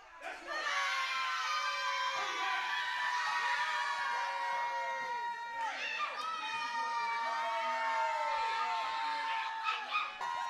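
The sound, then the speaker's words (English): Wrestling fans booing and shouting as a crowd: a loud, continuous wall of many overlapping voices that holds steady for the whole stretch, with a few brief swells near the end. “I can't hear anything he's saying because the fans are booing as soon as he opens his mouth.”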